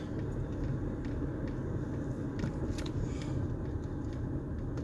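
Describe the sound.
Steady car road noise from a Saturday night drive, a dense, even low rumble with faint hiss that holds at a constant level throughout, with no talking.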